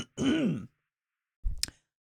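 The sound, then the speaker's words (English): Throat clearing from phlegm comes in two short, rough bursts: a longer voiced, gravelly one first, then after a pause a briefer, harsher rasp, with silence between and after. “I have phlegm in my throat.”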